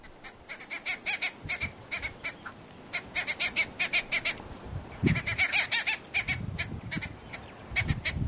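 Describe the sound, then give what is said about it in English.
Sharp alarm cries of a pied babbler sentinel: many quick, harsh, high calls in rhythmic bursts, loud and steady throughout, with no talk. “And when it sees one, it will emit this kind of sharp cry. Sounds something like this, according to the internet.”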